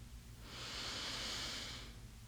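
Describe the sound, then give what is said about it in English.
A single slow breath in and out during a guided prayer: a soft, airy swell of breath that rises and fades over a low, steady hum. “And exhale. And let's take one final breath together.”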